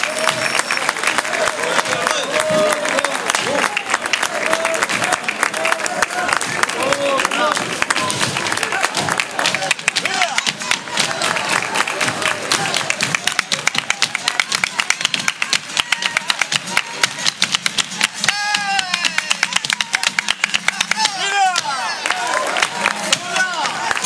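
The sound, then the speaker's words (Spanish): Loud, sustained applause from a live audience at a flamenco evening in Manilva, a dense unbroken wash of clapping and crowd noise lasting throughout, with a voice speaking over it. “Ese fortísimo aplauso. Esmeralda se va de Manilva con todo ese cariño de este público que tenemos aquí esta noche.”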